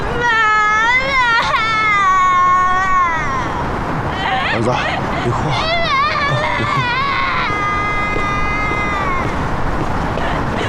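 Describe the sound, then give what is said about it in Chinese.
A young son cries in loud, wavering wails that rise and fall in pitch. The wails come in several long bursts over a constant rushing background noise. “儿子，别哭，别哭。”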